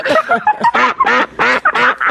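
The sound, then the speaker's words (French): A duck quacks in a rapid run of loud, nasal, buzzy calls, many short harsh bursts in an uneven rhythm with no other sound around them. “T'as vu, ça fait le canard, maintenant, fait.”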